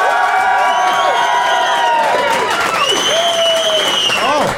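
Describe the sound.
Audience at a debate applauding and cheering a winning side: loud, sustained clapping mixed with whoops and shouting voices throughout.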